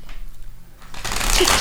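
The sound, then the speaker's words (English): Tarot cards are shuffled and handled during a card reading, a soft papery rustle that swells into a brisker, denser riffle in the second half. “Okay, tarot cards. Can you pull one? Is it time to pick the card? Pull a card.”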